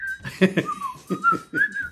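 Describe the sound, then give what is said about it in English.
A person tries to whistle while laughing: a thin, high, steady tone that wavers slightly in pitch and is broken up by breathy bursts of laughter. “It's hard to whistle when you're laughing, isn't it? It's very hard. I'm going to try.”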